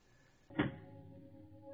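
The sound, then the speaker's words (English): A door closing with one quick, solid thud, followed by a steady low hum that lingers afterward. “A closing door finishes the story.”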